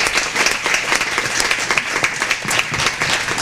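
Applause from an audience at a German-language gathering, dense, steady clapping that fills the whole stretch without a break and with no voices on top.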